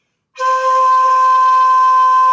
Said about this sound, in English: So here's a regular note.